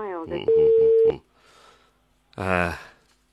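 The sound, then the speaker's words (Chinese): Telephone tone during a call: a single steady, level tone lasting about half a second sounds under a voice, followed by quieter noise and then more talk. “我们直接跟你们镇党委书记吴登胜书记打打电话也试试”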